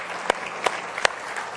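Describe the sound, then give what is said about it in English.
A church audience applauds the streamers in a brief round of clapping, with a few sharper claps standing out from the patter. “All of our streamers, we say God bless them tonight. Let's give them a nice hand, if you will.”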